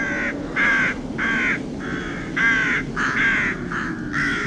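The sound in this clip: Rooks and jackdaws caw in a long, regular run of loud, harsh calls, each a short rasping note with brief gaps between them. No voices are heard.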